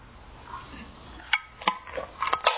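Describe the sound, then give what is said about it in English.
A plastic lid snapped closed on a coffee cup gives a few small, sharp clicks and clatters, faint and quick, bunched toward the end. “There. Snap the lid closed.”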